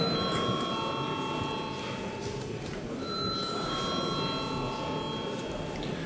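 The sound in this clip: A parliament chamber bell sounds before a vote as a steady, continuous ringing tone, with a second tone entering partway through over a low background murmur.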